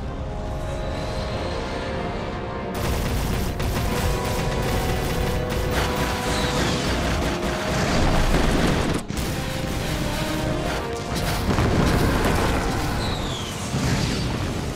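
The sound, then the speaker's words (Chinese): A battle rages with dense gunfire and explosions as an army opens fire: a loud, continuous barrage of booms and cracking shots with no break, swelling in a few heavier bursts. “嘿嘿，打得可真热闹哎！ 现在开火的是真帝国军。”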